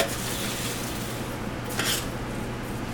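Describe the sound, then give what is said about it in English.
Beans and jasmine rice cooking in a pot while being stirred: a steady bubbling hiss with one brief, brighter scraping burst near the end. “Okay, so you got some beans. Cooking some beans over here, too. Okay. Because and then the rice, we cooking some rice, too.”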